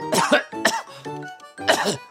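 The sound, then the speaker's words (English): Harsh coughing comes in a few short, forceful bursts separated by brief pauses, loud and rough with throaty breaks between them. “I'm coughing. You're coughing.”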